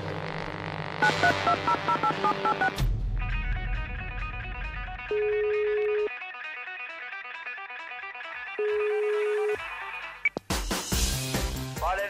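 A phone call is placed to a MotoGP champion: two long, steady ringback tones sound over a background music bed, with brief louder bursts of music at the start and end.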